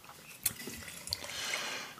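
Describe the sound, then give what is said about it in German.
Water is drunk from a glass during a wine tasting: faint liquid trickling and sipping sounds, with a couple of sharp little clicks and a soft swell of wet noise over about two seconds. “Oh, warte mal, ich muss gerade Wasser austrinken, damit ich mir keine Schorle mache.”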